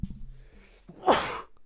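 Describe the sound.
A single sneeze bursts out sharply, a loud breathy blast that stands well above the quieter sounds before it.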